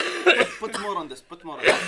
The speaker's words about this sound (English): I think we're coughing not because we're suffering from it, but because we're. No, we're allergic.